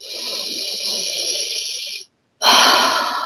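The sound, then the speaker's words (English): Breathing in through the nose then out through the mouth: a long, hissy inhale of about two seconds, a short silent pause, then a louder, broader, forceful exhale. “In nose, out nose. It's okay to hear yourself breathe. Now in nose, out mouth.”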